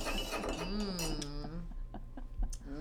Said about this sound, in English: Must you do that in front of the microphone? She's stirring her cacao wildly, because boy, does this stuff thicken up.